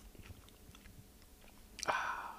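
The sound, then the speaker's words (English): Crunchy popcorn being chewed: soft, irregular crunching bites that stay faint, with one louder, sharper crunch near the end. “I'll tell you what, I do have delicious popcorn.”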